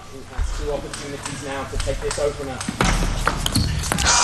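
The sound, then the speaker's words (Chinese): A table tennis ball taps in a few crisp bounces as Wang Chuqin serves at 10-8 in an important first game, heard under continuous commentary. “第一局很重要，10-8，现在王楚钦发球。”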